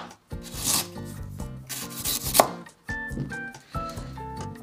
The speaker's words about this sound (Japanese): 生姜は、えー、いっぺんをみじん切りにしますまずこう薄く切っておいて